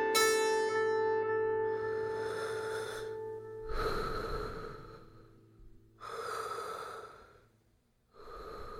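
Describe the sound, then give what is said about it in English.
Lifelike breathing of a sleeping figure: a few long, airy breaths, each a soft hiss of air drawn in and let out, following one another in a slow, steady rhythm. “How do you make this figure breathe in such a way that is so lifelike?”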